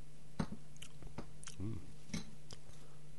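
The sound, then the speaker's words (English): Frozen cranberry ice chips are bitten and chewed, producing faint, sparse crunches and soft mouth sounds over a low steady hum. “Cranberry ice chips. Delicious.”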